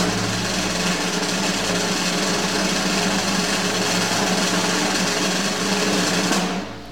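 A drum roll plays before a random number between 1 and 11 is picked, a dense, continuous rattle that stays loud and even for about six seconds before cutting off.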